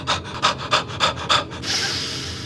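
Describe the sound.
Bellows breathing exercise: five quick, forceful, rhythmic huffs of breath, then a longer steady breathy hiss.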